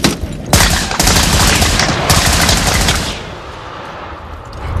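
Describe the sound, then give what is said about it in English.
Gunfire is fired into the window slot of a German tank during a battle, several sharp, loud bursts of rapid shots in quick succession that then drop away into a quieter rumble. “Miller fires into the tank's window slot.”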